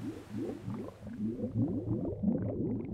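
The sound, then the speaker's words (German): Wastewater bubbling and churning in the grit chamber of a sewage plant, a roughly 30-metre concrete basin with several lanes; a continuous low, boiling gurgle of rapid overlapping blurps. “Die nächste Station ist deshalb ein etwa 30 Meter langes Betonbecken, das aus mehreren Bahnen besteht. Fast als würde es kochen, blubbert und sprudelt das Schmutzwasser im sogenannten Sandfang.”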